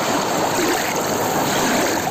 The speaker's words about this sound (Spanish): Un paseo por la beira do mar. Así soan las ondas na praia de Laxe.